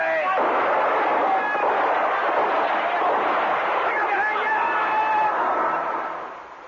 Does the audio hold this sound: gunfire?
yes